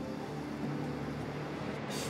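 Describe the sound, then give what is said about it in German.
Low, steady rumble of a train racing through the night, a continuous roar with no distinct beats and a brief burst of hiss near the end. “Der Zug rast durch die Dunkelheit seinem ersten fahrplanmäßigen Halt entgegen.”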